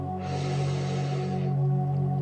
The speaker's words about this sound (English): Again, inhaling through your nose